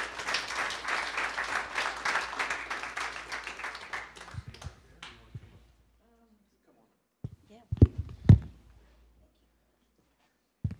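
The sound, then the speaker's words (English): Audience applause welcoming a speaker to the stage: dense clapping that gradually thins and fades out over several seconds. After a stretch of quiet, a few faint taps and knocks follow. “would you just put your hands together and welcome Leanne as she comes?”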